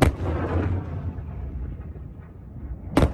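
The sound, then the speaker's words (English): Booming blasts of Chinese missiles fired into the Taiwan Strait: a loud, sharp burst opens and trails off into a long, low rumbling roar, then a second sharp blast strikes just before the end. “That is the sound of Chinese missiles fired into the Taiwan Strait”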